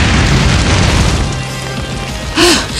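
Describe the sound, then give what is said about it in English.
Dense roaring rush of a torrent of cobalt fire slamming into a rock shield, a steady rumbling blast that swells into a sharper, louder burst near the end. “A torrent of cobalt fire slams into Benny and Jay as they shield the father and son.”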